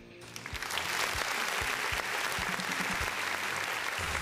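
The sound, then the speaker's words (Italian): Applause on an Italian talk program: dense, even clapping, fairly faint, sustained for about four seconds. “Gli faccio un applauso cortesemente perché io sono fiero della nostra screamer.”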